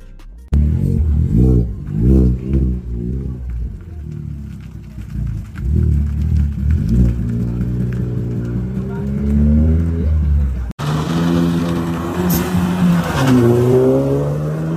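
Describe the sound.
Car engine revving loudly in repeated throttle blips, the pitch climbing and dropping with each one, then a longer sustained rev that rises steadily in pitch.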